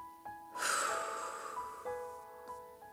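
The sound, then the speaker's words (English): A single deep, airy breath during a guided breathing exercise, its soft rush swelling and fading slowly over quiet sustained tones. “Now let's take a deep breath. And let it go.”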